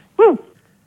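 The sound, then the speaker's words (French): A dog barks once over a telephone line, a single brief yelp-like woof that arches up and then drops in pitch, sounding alone against near silence. “Je crois qu'ils ont un chien, dis-moi.”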